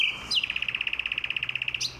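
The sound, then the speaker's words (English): A nightingale singing in Berlin in spring: a fast, even trill of many identical high, clear notes, opened by a short higher sweep and closed by a quick rising note, loud against a faint background hush. “when the Nightingales are in Berlin, this is my favorite concert.”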